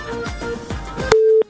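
A phone call from Khost cutting off: garbled line noise with a few short clicks suddenly drops out, leaving a brief steady electronic tone followed by one short separate beep.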